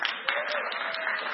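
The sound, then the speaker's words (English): An audience gives a brief burst of steady, dense applause for a woman who has just been thanked. “thank you, my dear. A hand for Carolyn?”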